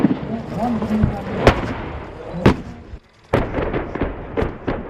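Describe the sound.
Naval guns firing from corvettes at targets: several heavy booming blasts spaced about a second apart over a dense, continuous rumble, with a brief dip to quiet before the later shots.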